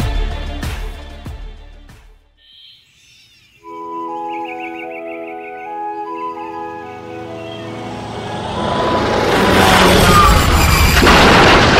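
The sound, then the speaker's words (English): A cartoon crash-landing sound effect: a few dull thumps, a short quiet gap, then a steady tonal whine that gives way to a loud, broad rushing roar building to the end, with no talking. “now for one of the Mach Billion's patented crash landings. Crash landings?”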